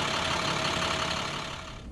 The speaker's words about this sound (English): This is the sound of a regular diesel school bus.